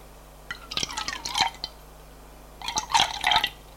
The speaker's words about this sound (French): Sur la table basse, elle prend la bouteille de whisky et un verre.